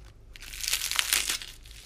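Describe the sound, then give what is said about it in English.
Crisp crunching of lettuce from a Burger King burger: a short, faint burst of crackly, crinkling bites lasting under two seconds. “Crunchy lettuce. Is this going to turn into ASMR? Burger King foot That's lettuce.”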